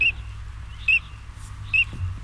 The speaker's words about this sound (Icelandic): fugl dagsins í dag urtönd, heyrum aftur hljóði